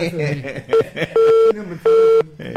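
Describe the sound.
Telephone tones after a phone line is cut off: talk comes first, then three mid-pitched beeps, one short and two longer, ring out loudly with brief gaps between.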